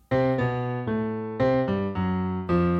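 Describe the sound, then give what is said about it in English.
A short odd-meter riff in 9 plays as a string of about seven sustained, harmonically rich notes. It steps down from C to A, jumps back up to C and ends with a brief chromatic run, steady and loud throughout. “It's a descending riff that starts on C, walks down to A, jumps up to C, and then ends on a little chromatic sequence. It sounds like this.”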